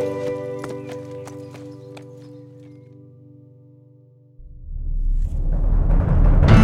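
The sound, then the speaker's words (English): Horse hooves clip-clop in a loose rhythm of crisp knocks as horse and rider ride off, over sustained tones that fade before a loud, broad swell of sound rises at the end. “Horse and rider rode north until they could no longer be seen by anyone in the now peaceful town of Shady Rest.”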